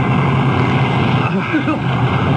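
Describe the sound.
A motorboat motor running in a radio drama, a loud, steady droning rumble that holds unchanged throughout.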